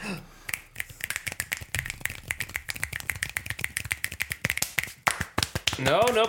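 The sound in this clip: Sparse, irregular claps or finger snaps from a few people, crisp and sharp, scattered unevenly across the stretch, with a voice speaking briefly at the end.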